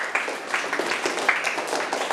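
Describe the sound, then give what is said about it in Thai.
Classroom students clap for themselves, a dense, steady patter of hands that runs evenly for about two seconds at moderate loudness. “จ้ะปรบมือให้ตนเองทั้งห้องเลย”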